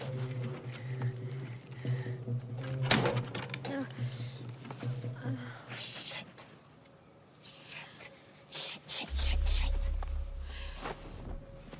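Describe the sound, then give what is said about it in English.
A shed door being unlocked and opened: a run of small mechanical clicks and rattles, followed by a louder stretch with a low scraping rumble. “Celia unlocks the shed's door.”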